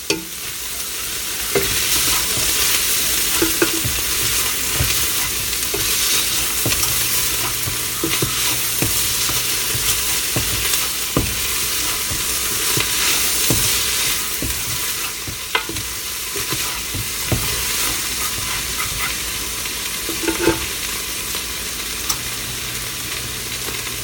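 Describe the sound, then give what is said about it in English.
Meat and vegetables sizzle loudly in a pan while being stirred, a steady dense frying hiss broken by scattered scrapes and clicks from the stirring utensil, with no voices. “And now I am going to give my meat and vegetables a stir.”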